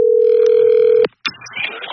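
Telephone call being placed: a loud, steady dial tone holds for about a second and cuts off abruptly. A click follows, then faint, noisy line sounds.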